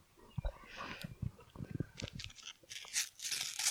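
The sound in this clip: Crinkly tearing as a packet is ripped open, a few sharp crackling bursts and rustles of thin wrapper material in quick succession.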